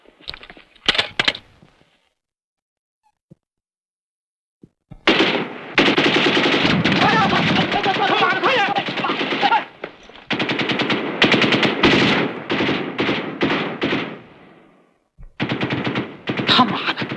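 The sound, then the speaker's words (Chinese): Machine gun and rifle gunfire crackle in rapid automatic bursts: a short opening burst, a pause, then a long sustained stream of fire followed by several more choppy bursts, all loud and sharp. “注意，准备射击。”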